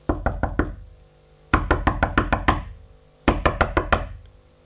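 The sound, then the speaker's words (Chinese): Knocking on a door comes in three separate bursts of quick, sharp raps. The first and last bursts each hold a handful of knocks, the middle one has a few more, and short silent pauses fall between them. “这时外面传来了敲门声”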